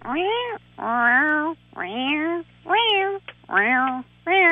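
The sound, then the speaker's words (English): A voice imitates the noise a manual stick-shift car makes when accelerating in first, second and third gear on very cold mornings: a series of whiny, tuneful calls at regular intervals, each bending in pitch a little differently. “when it's very cold in the morning and my car's a manual, like a stick shift. Yeah. When I'm accelerating, mostly in first, second, and third gear, it makes this noise. And it comes at a regular interval, but the noise is not the same. It goes,”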